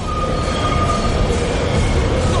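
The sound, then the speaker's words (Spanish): A subway train stops at an underground station, heard as a steady heavy rumble of wheels and carriages with a thin, high wheel squeal drawn out above it at an even loudness. “El tren para en una estación subterránea.”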